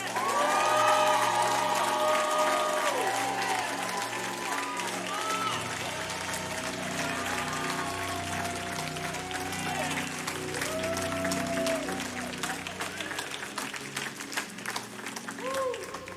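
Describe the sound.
A church audience cheering and applauding, with sustained clapping mixed with rising whoops and shouts. It is loudest at the start and keeps going at a slightly lower level through to the end.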